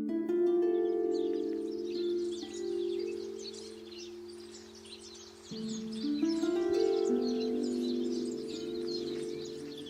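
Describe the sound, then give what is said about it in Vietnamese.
Birds chirp at dawn in bright, busy, high twittering bursts over a steady, sustained low tonal drone, with no voices. “Những tiếng chim hót líu lo chào đón một ngày mới.”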